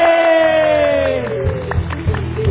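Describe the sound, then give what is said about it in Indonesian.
Cheering from an audience at a seminar on passive income: a loud, drawn-out shout of celebration rises above crowd noise and a few scattered claps. “Tepuk tangan dulu, kasih suara.”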